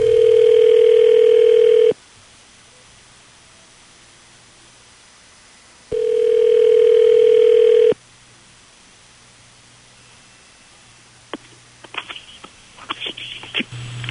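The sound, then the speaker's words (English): A telephone ringing as a call is placed: two long, steady ringback tones separated by a silent pause, followed by faint clicks and crackles on the line. “We'll call your boyfriend right now.”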